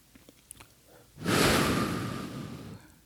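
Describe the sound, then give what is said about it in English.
Breathing in through the nose and out through pursed lips, as in a relaxation exercise. A quiet inhale leads into a long, loud, airy exhale with a hissing, windy quality that stays steady before gradually fading. “And just breathe in through your nose and out through your lips.”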